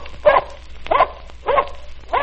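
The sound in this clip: Four sharp barks from a dog speaking up for treats, evenly spaced and fairly loud, with no voices.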